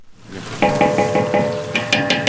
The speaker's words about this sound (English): She sautés slivered almonds in margarine in a huge aluminum pot outside